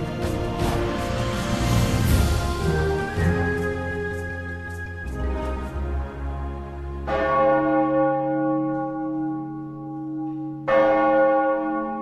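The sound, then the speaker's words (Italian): Church bells of a village ring out across a snow-covered valley: several heavy strikes with rich, humming overtones that overlap and linger in long, slowly fading decays, alone without voices. “I rintocchi delle campane che chiamano a raccolta la gente del paese sono l'unico rumore che rimbalza da un capo all'altro della valle.”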